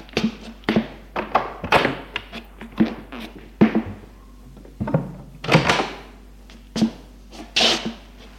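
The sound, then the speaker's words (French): A person sets a suitcase down on the floor and throws themselves onto a bed in an attic bedroom, heard as a long series of dull thumps and knocks at an irregular rhythm, with no talk. “Gilles pose sa valise à terre et se jette sur le lit.”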